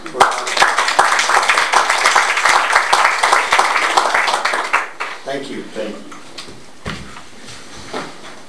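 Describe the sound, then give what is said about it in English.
A meeting audience gives a round of applause, with brisk, dense clapping for several seconds that thins out and trails off. Voices follow afterward. “I would like to have a round of applause for our”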